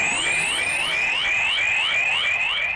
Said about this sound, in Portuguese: No momento em que apita Michael Oliver, começa o segundo tempo, bola rolando para Manchester City 0, Liverpool 0.